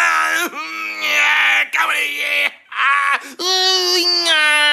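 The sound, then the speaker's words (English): A man imitates loud moaning, groaning and yelling: strained, drawn-out voiced cries that bend in pitch, broken by a few short gaps and heard alone without other sounds. “every single time you take a shit, you've got to moan and groan and yell at the top of your lungs, like,”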